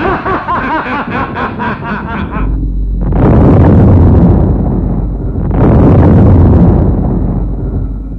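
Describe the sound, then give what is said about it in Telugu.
Hydrogen bomb blasts roar up as two deep, broad swells that each build and fade, following a short stretch of rapid, pulsing snickering. “అదే చేద్దాం. Hydrogen bomb, hydrogen bomb, hydrogen bomb.”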